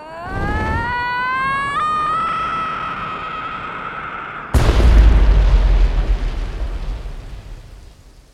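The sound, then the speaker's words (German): An explosion in a forest at the edge of a hill. A whine rises in pitch for several seconds, then a sudden loud blast with a deep rumble slowly fades away. “Masayuki und Yukio standen immer noch auf dem Dach der Schule mit offenen Mündern, als ein Teil des Waldes am Rande des Hügels explodierte.”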